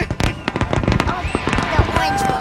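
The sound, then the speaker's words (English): Fireworks exploding at a public display watched by a crowd: dense, continuous crackling and popping bursts, loud throughout, with voices mixed in. “What do you think of the fireworks?”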